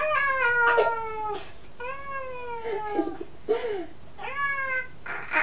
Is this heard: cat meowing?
yes

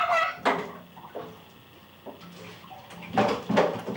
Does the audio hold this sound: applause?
no

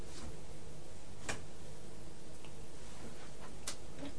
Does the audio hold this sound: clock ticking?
yes

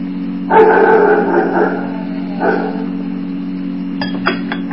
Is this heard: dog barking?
yes

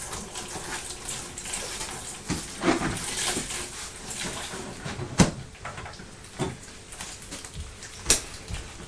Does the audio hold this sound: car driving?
no

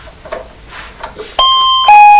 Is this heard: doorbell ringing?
yes

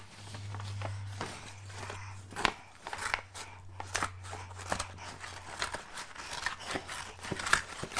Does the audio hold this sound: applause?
no

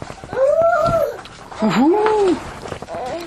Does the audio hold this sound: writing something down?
no

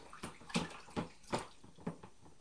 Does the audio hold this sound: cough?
no

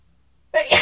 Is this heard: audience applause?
no

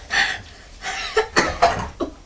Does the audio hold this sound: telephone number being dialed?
no

